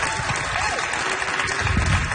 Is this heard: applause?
yes